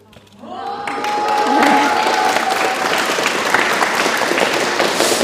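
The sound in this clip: School classes gathered at the Magnus-Gottfried-Lichtwer-Gymnasium in Wurzen cheer and clap. The noise swells up within the first half second, then holds as a loud, sustained din of applause mixed with shouting voices.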